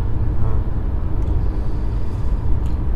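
Steady low rumble of a car driving, heard from inside the vehicle during a long road trip, a loud, constant engine and road drone with no talking.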